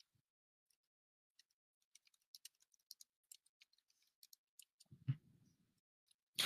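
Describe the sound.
Typing on a computer keyboard: many soft, irregular key clicks tapping away in near silence, followed by a brief low rumble and a sharper noise at the very end.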